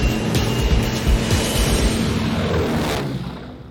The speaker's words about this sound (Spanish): Iniciamos carrera de despegue.